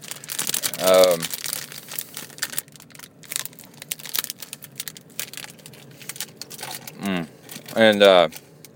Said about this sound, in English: Here's an Amrita bar.